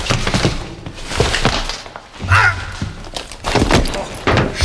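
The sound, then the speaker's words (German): A punch to the chin, an uppercut in a dramatic confrontation, lands as a dull, heavy thump amid voices and scuffling. “Na, das nenne ich einen saftigen Kinnhaken.”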